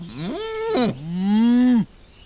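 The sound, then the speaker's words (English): Lowing from a buffalo herd: two loud, drawn-out moos heard alone, the first rising in pitch and the second longer and steadier before cutting off. “After 2 days, the Sioux find the buffalo herd.”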